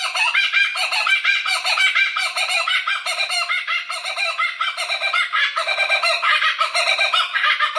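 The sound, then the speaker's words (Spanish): A laughing call of the common kookaburra rings out as loud, continuous cackling, rapid harmonic hoots in a steady pulsing rhythm that carries through the whole stretch without pause. “Pues se trata de la cucaburra común, cuyo nombre científico es Dacelo novaeguinae. En inglés se la conoce como cucaburra reidora.”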